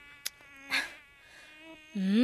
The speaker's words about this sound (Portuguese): Então são os mosquitos anófilos que transmitem o parasita da malária.